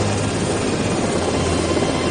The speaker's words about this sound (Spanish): El segundo helicóptero se mantiene unos metros sobre el suelo sin proceder al aterrizaje.